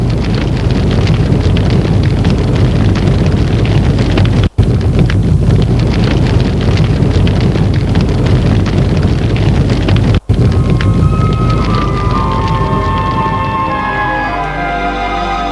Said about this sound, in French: Le feu de la cheminée empêche que l'on entende la réponse.